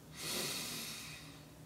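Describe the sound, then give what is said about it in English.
A single long, deep inhalation through the nose during a guided relaxation exercise. It is soft and airy, swells quickly, then tapers gradually alone without talk. “I invite you to take a deep breath.”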